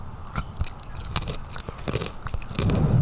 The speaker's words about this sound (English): Also, we're eating chocolate, so I apologize.